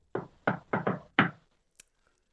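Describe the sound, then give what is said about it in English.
Five dull, solid knocks in an uneven rhythm, with the fourth following closely on the third, then a short pause and one faint click. “All right, I want you to finish the knock for me.”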